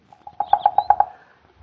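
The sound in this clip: A red-headed woodpecker pecks an oak tree with a rapid run of hollow, woody knocks that grow louder. After a short pause, one more sharp knock follows.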